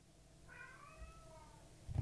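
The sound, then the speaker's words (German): A cat gives a single drawn-out meow, quiet and slightly wavering, lasting about a second, with no voices over it. “Du kannst da nicht raus, bist eine Katze.”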